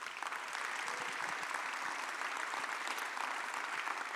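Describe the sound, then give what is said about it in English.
An audience applauds to welcome missionaries at a church service on a mission-focused Sunday, with dense, steady clapping from many hands filling the whole stretch at an even level. “So would you join me in welcoming our missionaries? I want to introduce them one at a time. We have the Longorias here. Would you give them a hand?”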